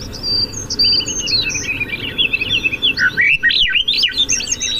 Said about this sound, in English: The ambient sound is coming from the doghouse, but it's meant to refer to the whole space, and it's classic backyard sounds.